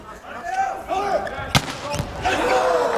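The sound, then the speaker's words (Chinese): A volleyball serve by a middle blocker in a match lands as one sharp, loud impact, standing out briefly above steady crowd noise and voices. “西川新太郎的发球，”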